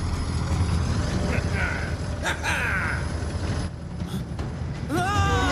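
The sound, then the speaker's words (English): A digger driving down an alleyway gives a loud, steady engine rumble, broken by a few brief mechanical squeals. “Below, a digger drives down the alleyway with Robo Bill at the wheel.”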